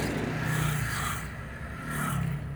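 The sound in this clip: A car engine idles while the car waits at a traffic light. A low, steady, faint rumble runs throughout, with two gentle swells of hissing noise over it.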